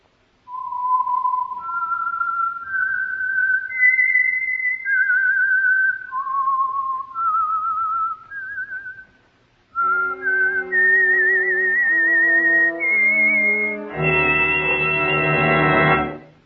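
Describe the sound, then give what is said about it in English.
Whistled signature tune that identifies an oil company's radio program: a slow melody of sustained, clear notes that step up and down, loud and alone. After a brief gap partway through, fuller, richer-toned notes carry the tune to the end. “And for Sunday evening listening pleasure, the signal to listen for is this whistle that identifies the Signal Oil Program, The Whistler.”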